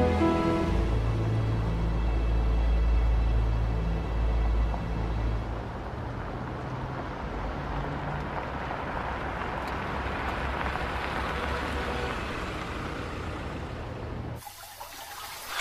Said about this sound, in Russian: Едет девушка на своей машине.